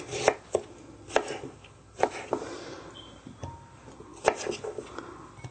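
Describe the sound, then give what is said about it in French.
A knife chops a cucumber into chunky pieces, giving a series of crisp, sharp knocks at an uneven pace with quiet pauses between some of the cuts. “On n'a pas besoin de couper en trop petits morceaux, juste pour que ce soit plus facile à mélanger. Voilà. On va faire la même chose jusqu'à ce que tout le concombre soit utilisé.”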